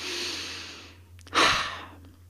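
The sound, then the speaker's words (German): A single deep breath, a long airy inhale followed by a louder, rushing exhale that fades out, with no talking. “Atme noch einmal tief ein und aus.”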